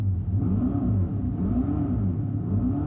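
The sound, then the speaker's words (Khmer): Electric Dodge Charger producing a synthetic gasoline-style engine sound: a steady, deep rumble with gentle revving swells throughout, alone with no voices. “សំឡេងនេះដូចជាសំឡេងម៉ាស៊ីនរថយន្តធម្មតាអញ្ចឹង”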